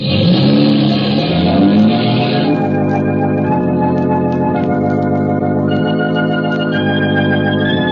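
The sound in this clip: A car engine revving while driving: a loud, continuous mid-pitched drone that holds a higher, brighter note in the first couple of seconds, then settles into a steadier hum.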